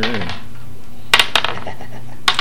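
Dice clatter as they are rolled for initiative in a role-playing game. A few sharp clicks and rattles rise over a steady background hum, with one last click near the end.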